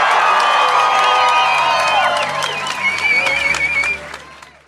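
A concert crowd cheers and claps for a band, with loud shouts and whoops over dense applause that holds steady and then fades away in the last second.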